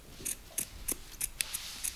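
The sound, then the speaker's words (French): Scissors cut small strips in seven quick, crisp snips at a roughly even pace. Each snip is a short bright click, fairly faint and heard alone. “découper des petites bandes”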